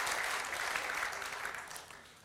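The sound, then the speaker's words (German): Faint applause during a German Bible discussion, a soft, even patter of clapping that gradually fades over about two seconds. “Kann man schon mal klatschen.”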